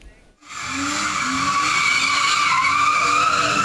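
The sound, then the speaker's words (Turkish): Tires screeching as a car drifts on a street in Ankara's Keçiören district. After a brief quiet start, a loud, sustained squeal holds steady with a tonal whine, backed by a constant engine roar. “Ankara'da bir otomobil sürücüsü aracıyla drift yapmaya başladı. Üstelik o anları da kayıt altına aldılar.”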